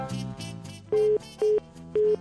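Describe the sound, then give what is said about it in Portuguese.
A telephone tone sounds after a call drops: three short, steady, loud beeps spaced evenly apart, following a softer, muffled tonal sound. “Caiu a linha aqui, ó. Caiu a linha.”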